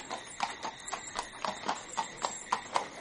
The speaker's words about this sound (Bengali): ঠিকা গাড়ি কিছু দূর সোজা গিয়ে পার্ক স্ট্রিটের সামনে ময়দানের রাস্তায় মোড় নিল।